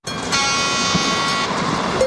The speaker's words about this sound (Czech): Mimořádný baňský spěšný vlak po uhelných vlečkách Ostravsko-Karvinského černouhelného revíru odjíždí každou sobotu a neděli ze stanice Havířov a Ostrava Střed.